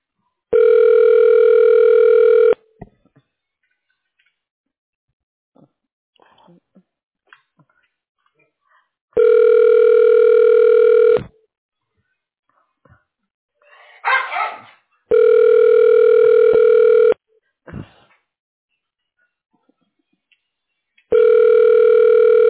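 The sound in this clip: Telephone ringback tones sound while a call is transferred to voicemail: four loud, steady two-second buzzing tones separated by long gaps, with the last cut short, and faint clicks and rustles between them.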